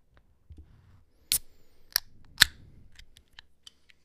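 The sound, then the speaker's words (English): Cans of dill pickle beer are cracked open with three sharp, bright pops about half a second apart. A few faint clicks and ticks come before and after. “All right, should we crack these open? Let's crack these bad bitches open.”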